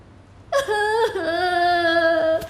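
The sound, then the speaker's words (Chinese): A woman cries in a long, wavering, high-pitched wail during a tense workplace argument. The cry starts abruptly after a moment of quiet, dips briefly, then carries on loud and tonal with no words. “你别哭了，你觉得委屈是吗？”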